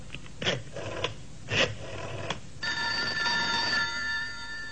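A telephone ringing with a steady, high electronic ringing tone that holds for about a second, preceded by a few short bursts of noise.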